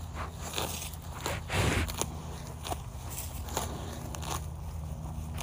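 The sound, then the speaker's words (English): Cows munching grass on a breezy, chilly day: many crunchy tearing bites and chewing sounds at an irregular rhythm over a steady low background. “This is the sound of cows munching grass on Wednesday, March 15th.”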